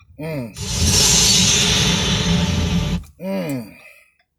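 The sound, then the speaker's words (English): Road and wind noise inside a moving car, a loud steady rushing roar lasting a few seconds, with brief bits of a voice talking just before and after it. “Driving right now back to my fucking crib.”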